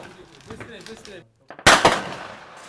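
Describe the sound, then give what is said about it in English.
A gunfire crack in a frontline industrial war zone: one sudden, loud, sharp burst with a short rough tail, coming right after a stretch of talking. “So 5, maybe 10 minutes after we arrive, and sniper fire, the crack of machine guns, the soldiers here say probably RPGs,”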